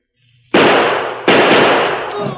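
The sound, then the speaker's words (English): Two loud, sharp gunshots ring out in a radio drama shootout, each a sudden bang followed by a long, rumbling decay. “Hold your fire! I'm through! Oh, my, don't shoot!”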